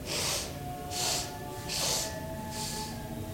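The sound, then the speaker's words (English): Four sharp bursts of breath are sniffed in through the nose during a breathing exercise. They are evenly spaced about a second apart and airy and fairly soft, with no talking between them. “you have to break the breath into four sharp bursts. This is very, very good breath for anger and irritation. And it expands your lung capacity. So you'll sound like this.”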